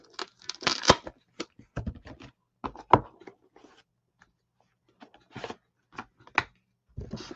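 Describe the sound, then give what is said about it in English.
Dry rustling and snapping of stiff cards as an oracle card is pulled from a Mayan deck, coming in a few sharp bursts of shuffling separated by short pauses, with no talk over it. “Now let's get a Mayan card out.”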